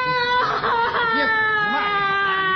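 Whimpering, sobbing cries from a person in a dramatic scene with an army squad, wavering over steady sustained tones that run throughout.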